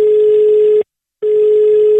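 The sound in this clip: Telephone ringing tone as a call is placed: a loud, steady mid-pitched tone, a short silence, then the same tone returns, heard twice with no voices.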